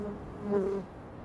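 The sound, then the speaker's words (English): A bee buzzes while crawling on a person: a faint, low hum that swells briefly in the middle and then fades back down, with no voices. “You got a bee crawling on you. A bee?”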